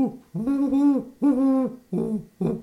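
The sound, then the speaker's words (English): A human voice imitates a great horned owl's deep, monotone hoot: four low, steady hoots, the first two long and drawn out, the last two shorter and clipped, each held at an even pitch. “The great horned owl will be deeper. It's like,”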